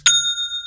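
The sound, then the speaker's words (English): A single bright notification chime for an online store sale rings alone with a clean bell-like ding, then sustains as a steady high tone without fading. “Well, I love that sound. And that is the sound of another sale on Shopify,”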